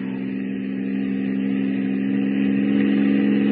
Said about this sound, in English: What is the fool doing driving on a pitch dark night like this without lights? The fool! The idiot! Driving without lights!